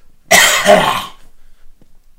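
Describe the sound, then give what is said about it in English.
Harsh coughing from a person, delivered as one loud burst of rough, throaty coughs with two surges, standing alone with no talk and quiet on either side. “Why am I burping and coughing?”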